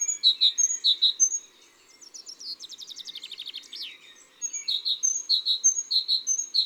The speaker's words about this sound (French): Là, c'est la mésange charbonnière.